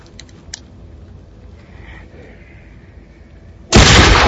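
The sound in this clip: A gunshot cracks out suddenly and loudly near the end, after a long stretch of near quiet with only faint low noise.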